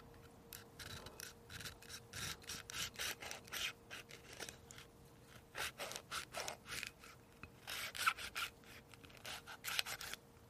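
A knife cuts through a passion fruit in many short, rasping strokes that come in uneven bursts, with brief pauses between, and no voices.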